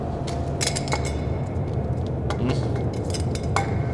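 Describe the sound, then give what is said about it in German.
Empty spray paint cans being picked up and handled, giving off a string of light, irregular metallic clinks and taps over a low, steady background hum. “Leer, leer, leer. Tja. Also mal jede Dose anfassen, dass meine Fingerabdrücke drauf sind.”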